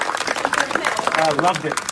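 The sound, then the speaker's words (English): Tepid audience applause for a star arriving at a movie theater, thin and patchy clapping that flickers unevenly beneath voices talking throughout. “Well, it was kind of tepid applause for a star of his magnitude.”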